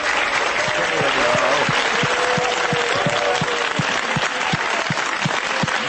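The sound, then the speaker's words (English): Studio audience clapping for itself during a live talk radio show, a thick and sustained wash of applause that holds steady throughout without fading. “It's a bit self-centered, isn't it? You clap a little harder for yourself than for the show host.”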